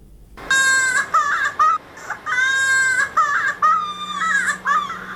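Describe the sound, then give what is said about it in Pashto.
An infant wails loudly at a polio vaccination in Helmand. Several long, high, strained cries are separated by brief catching breaths, and there is no talking. “چې د یوه ماشوم په ژړا پیلېږي”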